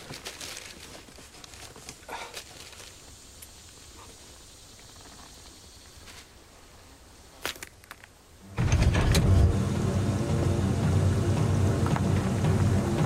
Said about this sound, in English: Mort started the truck's engine and taken off its parking brake